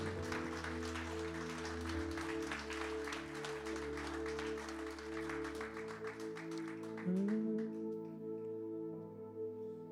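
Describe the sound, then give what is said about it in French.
Church audience applauding over sustained keyboard-like chords, with quiet steady clapping that thins out toward the end and leaves the held musical tones. “Tous enfants de Dieu, on peut l'acclamer, ouais.”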